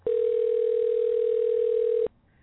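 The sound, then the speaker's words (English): A single ring on an outgoing telephone call: one steady, mid-pitched tone held for about two seconds, then cut off to near silence. “How many rings do you think he'll answer? I don't know. Four?”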